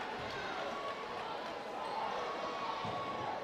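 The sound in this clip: Basketball dribbled on the court during a high school boys' game between Rockvale and Blackman, a few faint bounces under constant crowd noise.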